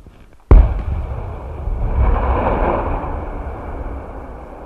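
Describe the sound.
A controlled detonation of a bomb, fired by cable from about 250 yards behind a stone wall, starts with one sharp, heavy blast. A long, rolling rumble follows and slowly fades.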